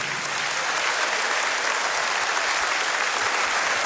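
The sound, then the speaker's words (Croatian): An audience at a stage show applauds the orchestra Čisti luksuz, a band from Istria and Kvarner, with a steady, dense roar of clapping from many hands that holds an even level for the whole stretch. “Hvala lipa, aplauz za najbolji orkestar na Istri i Kvarneru, Čisti luksuz.”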